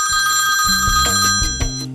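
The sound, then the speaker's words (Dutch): A telephone ringing tone sounds while a call is placed, a steady high electronic tone held through the whole stretch above lower, pulsing background sounds. “Nou, ga ik even Pierre bellen of ik, eh, of ik het juiste heb gedaan.”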